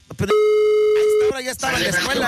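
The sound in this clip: A telephone ringback tone while a call is being placed, one steady buzzing tone about a second long, with voices and noise around it.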